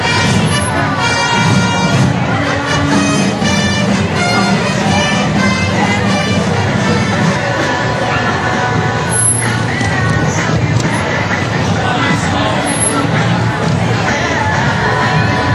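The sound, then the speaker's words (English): A parade crowd cheers loudly, a dense, unbroken roar of many voices that holds at an even level for the whole stretch. “Give a loud cheer.”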